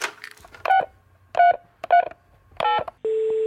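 A telephone number is dialed as four short touch-tone beeps at slightly uneven intervals. A steady, continuous tone follows them.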